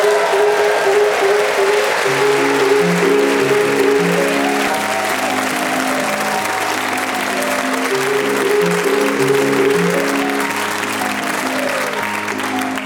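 Quick melodic Minute Waltz theme music plays over steady audience applause. The running notes continue throughout and become slightly quieter toward the end.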